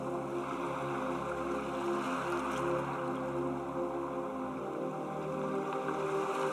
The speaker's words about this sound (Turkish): Okyanusun seslerinin sizi yıkamasına izin verin.